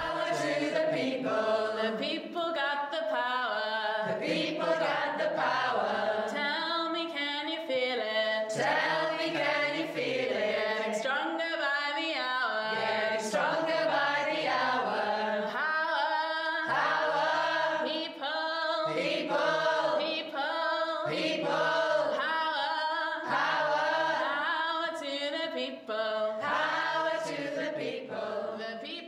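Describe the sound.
The XR Choir sings a protest chant used at Extinction Rebellion protests, many voices in rich, sustained harmony carrying on steadily and loudly throughout.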